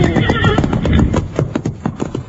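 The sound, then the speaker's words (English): A big black wild horse neighs loudly, a shrill whinny at the start, then gallops in a rapid run of hard, uneven hoofbeats near a cliff edge. “He's one of the prettiest wild horses I ever saw in my life.”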